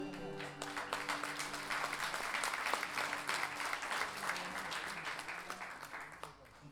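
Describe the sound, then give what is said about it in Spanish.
Applause from the audience at a national guitar festival, a dense, steady wash of clapping that holds at an even loudness for the whole stretch and thins slightly at the very end. “aplauso para Gabriel Torres, por favor”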